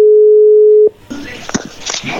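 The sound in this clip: One steady, clear telephone tone holds for under a second and then cuts off, giving way to crackly line noise and people talking.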